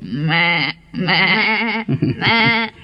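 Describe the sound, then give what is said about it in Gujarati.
A goat bleats in several loud, wavering, nasal cries with short gaps between them, each strongly tonal and quavering. “આ તો બકરી બેન આવ્યા.”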